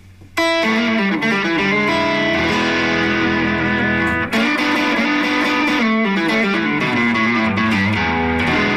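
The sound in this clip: Electric guitar through a distortion pedal set for a bluesy starting tone, playing loud, sustained overdriven notes and chords with a gritty edge, continuous apart from one brief break midway.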